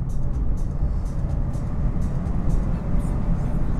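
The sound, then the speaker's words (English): Car engine and road noise while accelerating onto a freeway in Tiptronic mode, a loud, steady low rumble that runs throughout without a break. “Okay, so I'm going to be doing a freeway approach here. So I'm going to be getting a little more aggressive or more assertive. So I'm in Tiptronic mode.”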